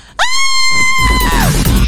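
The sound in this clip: A person screams in sudden fright, startled by a cat running across the room: a single loud, high-pitched shriek held for over a second that drops away at the end.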